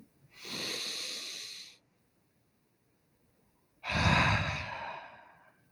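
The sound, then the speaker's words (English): Two long, deep, breathy breaths taken together in conversation, separated by a few seconds of near silence. Each is a drawn-out airy rush that swells and then tapers, with the second slightly louder and sighing. “I'm doing five of these today, and I'm going to take five big deep breaths”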